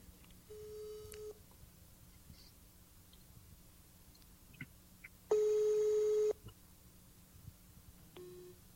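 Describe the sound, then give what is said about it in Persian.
Repeated electronic ringback tones of an outgoing telephone call that goes unanswered: a few long, steady, even-pitched beeps separated by pauses, fairly loud against a low background hum, with no talk. “خب قهر کرده فکر کنم تلفن ما رو جواب نمیده.”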